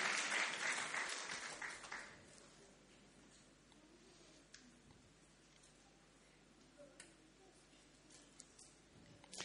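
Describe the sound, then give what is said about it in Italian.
Applause of encouragement in a church service, a brief burst of clapping at the start that quickly fades into near quiet with a few faint ticks afterward. “facciamo un applauso di incoraggiamento”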